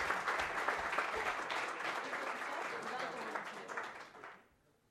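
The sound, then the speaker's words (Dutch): Applause from a gathering after a new council member is sworn in, steady dense clapping that holds for about four seconds and then fades away. “Dan mogen we jou van harte feliciteren. Mag best applaudisseren.”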